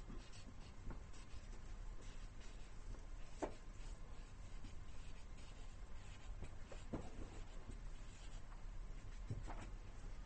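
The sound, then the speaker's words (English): Writing during a lecture on a Sanskrit sutra: steady, faint scratchy strokes run continuously, with a few sharper accented marks standing out, and no talk over them. “I'll write this. This term is important.”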